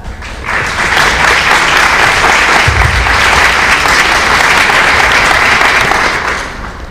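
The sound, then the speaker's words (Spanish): Loud, steady audience applause for a speaker, a dense wash of many hands clapping that fades out at the end. “Bueno, antes que nada, muchas gracias por el aplauso.”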